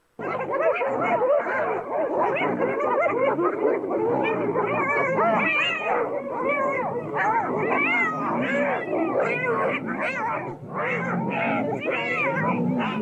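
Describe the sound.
A dog barks back without pause, its loud, overlapping barks and yelping, howl-like cries packed densely over the whole stretch with hardly any gap.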